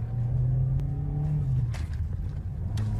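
A sedan's engine hums steadily while it drives and swerves, recorded from its dashcam. The low drone is continuous and even throughout, with no voices.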